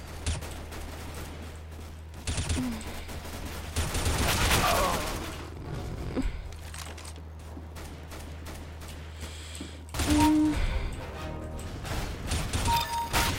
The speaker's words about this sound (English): Oh, you and your fucking shotgun.